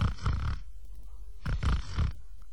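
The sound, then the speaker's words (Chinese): A storyteller imitates a monk snoring with his voice, giving two loud, rasping snores, each a low, rattling, snorting rumble, separated by a quiet pause. “他说到这儿一看呢，鲁智深在那闭着眼睛打呼噜呢”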